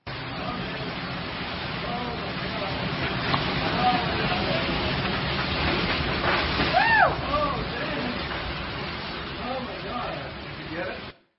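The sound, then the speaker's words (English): Hurricane Matthew's wind and rain tearing at a tree, a dense, steady, loud rushing roar that holds for about eleven seconds before cutting off abruptly. “Watch this video of a tree in Hurricane Matthew.”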